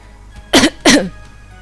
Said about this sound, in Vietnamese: Thạch Tiểu Bảo ho khan hai tiếng